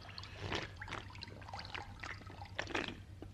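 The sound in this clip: Water is scooped up in cupped hands to drink, giving soft, faint splashes and trickling pours that come in small irregular bursts.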